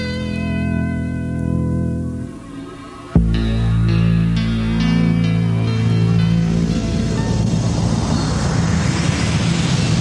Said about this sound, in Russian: Внимание, приготовиться на взлет.